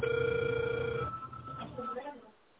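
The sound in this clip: A telephone rings on an unanswered call, one steady tone lasting about a second that fades into softer sound.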